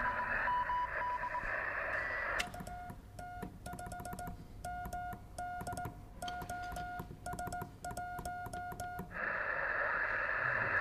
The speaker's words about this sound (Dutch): We zitten in een telegrafie op 20 meter. Oekraïne.